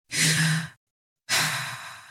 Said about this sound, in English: Take a deep breath.